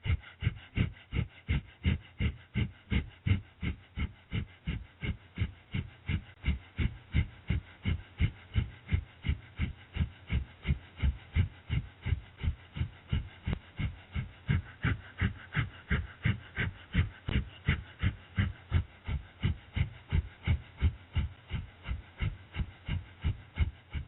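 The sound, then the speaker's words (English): Breath of fire, a rapid yoga breathing exercise: many quick, forceful exhalations in a steady, even pulse that continues throughout, with no talking. “Continue breath of fire for another minute.”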